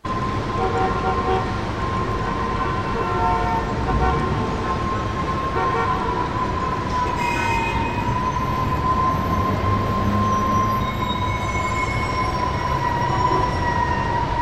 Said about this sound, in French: New York, les habitants vivent dans cette atmosphère de bruit permanent, de jour comme de nuit. Il y a ce bruit perpétuel qui quitte jamais la ville